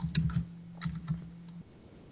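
Quiet typing on a computer keyboard: a handful of soft keystroke clicks over a steady low hum that cuts off partway through.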